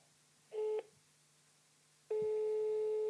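Telephone call tones sound while a friend is being phoned: a short beep, a pause, then a long, steady tone that continues to the end.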